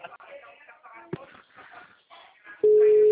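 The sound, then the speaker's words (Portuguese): Busy tone from a telephone call that fails to connect, a loud steady tone cutting in abruptly after a stretch of faint talk. “Aí eu tô tentando ligar aqui pra ela, não tô conseguindo, que ela falou que... Ué, gente, que acabou de cair.”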